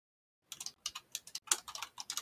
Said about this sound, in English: Oh, look at him type, guys. He's doing another project for school. Look at him type away. Look at that.